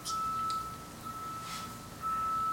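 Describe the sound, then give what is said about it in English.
Truck reversing beeps sound as a few faint, steady high-pitched tones with short gaps between them, over quiet background hiss. “That sound is so obnoxious. You would have thought it was like a U-Haul moving right, truck.”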